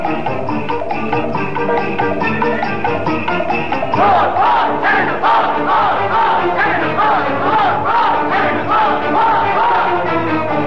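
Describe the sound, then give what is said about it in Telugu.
Shouting voices and battle cries from a crowd in a Telugu mythological drama, a loud, continuous clamour of many voices that grows fuller and more intense partway through. “Daruka, ఏమిటి కేకలు? ఎవరో కనిపించరే.”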